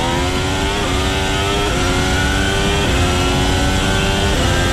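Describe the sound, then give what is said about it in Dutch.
Formula 1 cars racing at speed, one running with extra boost power, give a loud, continuous high-pitched engine scream, its pitch climbing and dropping back in several steps as gears shift. “Piastri heeft boost openstaan. Die loopt veel harder. En Leclerc houdt hem dus steady op 307 tot aan het rempunt. Goed te zien en goed te horen.”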